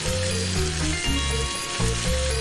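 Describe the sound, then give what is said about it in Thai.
Lobster deep-frying in oil so the head cooks through, giving a loud, steady sizzle and crackle of hot oil that runs without a break for the whole stretch. “เดี๋ยวกุ้งมังกรครับทอดชาน้ำมันให้ตัวหัวมันสุกครับ”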